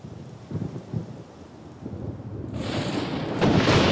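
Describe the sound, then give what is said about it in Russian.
Thunder in a storm with lightning and rain rumbles low and uneven, then a loud hiss of heavy rain surges in and grows stronger toward the end. “Молния, дождь.”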